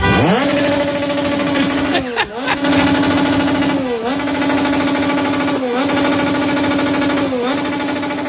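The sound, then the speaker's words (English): A motorcycle engine revving outside a hotel, a loud, continuous rattling drone that climbs at the start, then holds a steady pitch broken by four brief dips roughly every two seconds. “Now, either that's a motorcycle or someone is using a drill to try to fix something right outside the hotel.”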